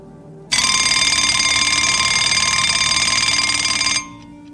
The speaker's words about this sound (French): Le lendemain matin, le réveil sonne à 8h.